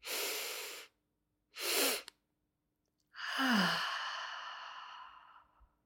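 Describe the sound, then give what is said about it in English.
Breathing exercise: two separate audible inhales through the nose, then after a pause one long, open-mouthed exhale that starts loud and breathy and trails off slowly. “take 2 inhales through the nose, and then you're going to open up the mouth and take an audible exhale. So it sounds like this.”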